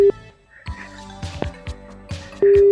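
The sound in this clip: A telephone is dialed and rings to call someone's mother: a steady low tone at the start, a busy stretch of short beeps and clicks, then the steady tone returning loudly at the end.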